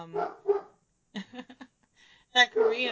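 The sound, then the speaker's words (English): Dogs bark in a few sharp, short bursts separated by brief pauses, with small yipping calls between the louder barks. “Shut up, dogs! This is exactly why we don't record anymore!”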